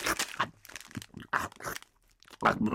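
Wrapper crinkling and crunchy biscuits being bitten from an old cookie roll, a quiet series of short, sharp crackling bursts with brief gaps between them.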